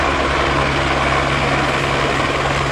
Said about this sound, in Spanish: Los helicópteros pudieron abastecerse del agua en las piscinas municipales de La Calabaza.